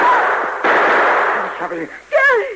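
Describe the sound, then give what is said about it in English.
A gunshot in a Western drama scene sounds as one sudden loud burst that leaves a sustained hiss, followed moments later by brief voices. “you shot him. He fell to the ground.”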